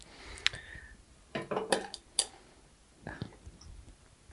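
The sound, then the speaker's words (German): A lid is lifted off a cooking pot as food is checked, giving faint metallic clinks and taps. A few sharp, scattered knocks and light rattles break otherwise quiet surroundings. “Soll ich mal den Deckel hochnehmen? Guck mal.”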